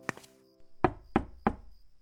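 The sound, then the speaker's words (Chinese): Someone knocks on a room door: three crisp, evenly spaced raps, each short and sharp against a quiet background. “他敲敲门。”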